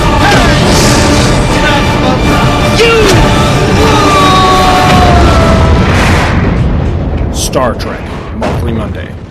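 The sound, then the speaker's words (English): Heavy booming blasts of starship weapons firing during an attack, a loud, continuous rumbling barrage with whistling tones. Voices are heard over the din. “We are under attack. Fire, Mr. Scott.”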